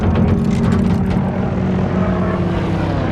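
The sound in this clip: An aircraft coming in to land, a loud, steady engine roar with a low throbbing hum underneath and no voices.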